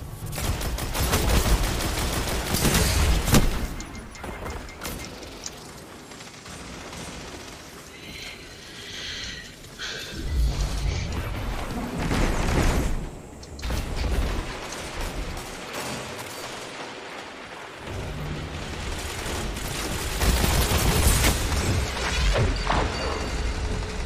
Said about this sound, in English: Watch that rocket.